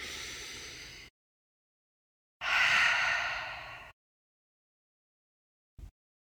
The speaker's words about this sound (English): inhale through your nose. Exhale through your mouth. One final breath.